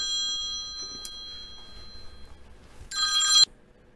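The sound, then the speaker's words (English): Telephone ringing: a single short, bright, trilling burst of ring that stops abruptly, following a quiet stretch with faint steady tones. “We got interrupted by a important phone call I had to take.”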